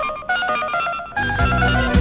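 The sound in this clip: A telephone rings at a radio station: a steady, bright electronic ringtone with sustained tones that grows louder partway through, with no voices.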